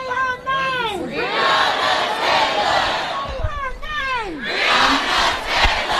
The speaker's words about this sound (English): When you hear the word protest, different sounds might come to mind. Sometimes protest sounds like this.